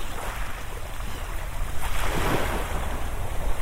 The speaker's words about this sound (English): I just want to stand here and listen to the water, because it's just so,